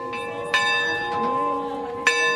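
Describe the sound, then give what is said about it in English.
A bell rings on a handcrafted, flower-covered Eucharistic float in a Catholic procession through a city. A few struck tones, two of them strong, each leaves a long, shimmering, overlapping ring. “The monstrance was carried on a handcrafted Eucharistic float, covered in flowers and fashioned with a bell that rang as the faithful processed throughout the city.”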